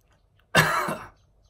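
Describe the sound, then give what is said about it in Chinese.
A single harsh cough, about half a second long, bursts out after a mint drink went down the wrong way into the throat, loud against otherwise near-silence. “把一个薄荷喝到嗓子里面去了”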